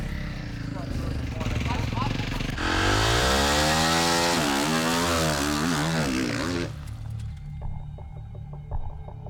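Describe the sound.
Motocross bikes ride to the starting grid, their engines buzzing loudly and revving, with the pitch sweeping up and down in the middle before easing off. Voices talk over the engine noise.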